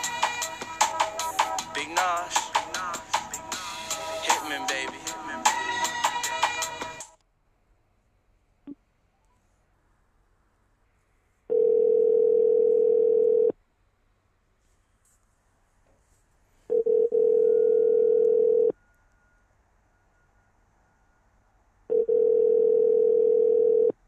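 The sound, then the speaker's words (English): Telephone tones while placing a call: after a stretch of busy, dense sound and a single click, three steady two-second tones sound alone, each separated by several seconds of silence. “we're going to call a young boy Twine up and see what he got to say”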